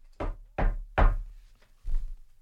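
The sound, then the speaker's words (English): Four dull, hollow knocks on wood, the first three coming quickly and evenly, then a short pause before the last. “Let's hope that's not the case. Knock on wood.”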